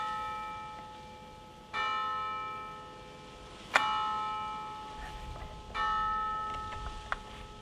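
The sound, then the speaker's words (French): A bell strikes the hour in a convent parlor: a few slow, evenly spaced strokes, each ringing out with a bright metallic tone that hangs and decays before the next. One sharp click sounds near the end. “Là, l'heure sonne.”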